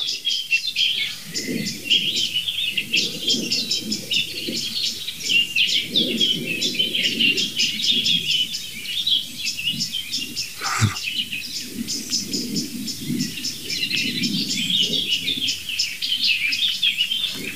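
Agitated birds calling nonstop from dense vegetation where blackbirds and song thrushes are about: many sharp, high chirps and calls over a lower murmur, broken by one sharp crack near the middle.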